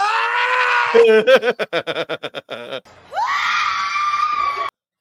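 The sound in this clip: A woman's loud screaming yell from wrestler Lita, a sustained shriek, then a rapid run of stuttered pulsing cries, then a second long shriek.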